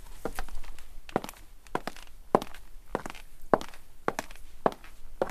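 Footsteps of high-heeled shoes walking, a steady run of many firm heel strikes with a crisp, clicking edge, heard alone without talk.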